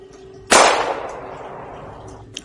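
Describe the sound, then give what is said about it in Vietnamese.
A single sharp gunshot cracks out near tents, then its loud report decays slowly over about two seconds, followed by a faint click. “Bên ngoài vang lên một tiếng hồn lớn, lại thêm một tiếng súng nữa đã vang lên.”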